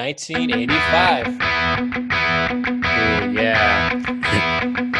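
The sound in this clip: Music from a 1985 recording plays with heavy reverb: a loud, continuous, distorted mix with a repeating low note pattern and a voice running over it.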